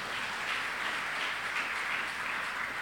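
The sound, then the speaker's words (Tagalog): Applause from a church audience during a sermon, a dense, steady wash of clapping that holds at an even level for about three seconds with no talk over it. “Palakpakan natin ang Diyos na buhay.”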